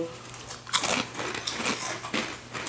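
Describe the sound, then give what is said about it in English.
Crisp crunching bites into a ketchup-flavoured potato chip: a few sharp, dry crunches spaced out over a soft background, the first bite the loudest. “That is a ketchup chip. Yeah. I like it. Yeah. Mm-hmm. I taste the ketchup. It's tomato.”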